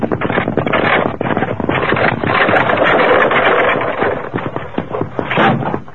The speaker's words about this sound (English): Kemosabe, what's that? Evidently a runaway wagon wheel. Steady, Silver. Must have rolled off the main trail up above us. Ah. I heard it coming.